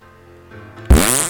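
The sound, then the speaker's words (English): A voice imitates a fart with the mouth: one sudden, loud, buzzy low blast that sputters for about half a second after a quiet, steady tonal background. “That was a fart noise I made in my mouth.”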